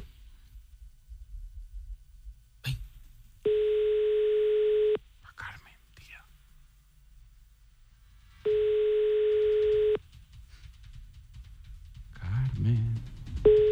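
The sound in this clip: Telephone line tones sound while a call is placed again: two steady, even tones of about a second and a half each, separated by a pause. Quiet voices and small handling noises come between and after them.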